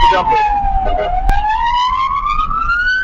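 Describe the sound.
An ambulance siren wails loudly on a road where a pickup truck will not pull over. Its pitch dips at first, then climbs steadily, over a low rumble of traffic.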